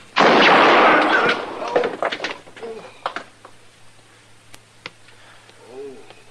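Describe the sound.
A single loud, sharp gunshot bursts out at the start and strikes a gun, then decays through a long ragged tail. Fainter scattered knocks and rustles follow, with a brief voice near the end.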